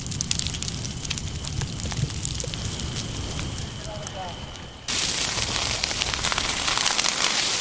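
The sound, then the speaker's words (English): Trees burning in a wild forest fire in California crackle and roar as a dense, steady hiss of tiny pops and snaps, which steps up louder partway through. “That is the sound of trees burning in a wild forest fire in my home state of California.”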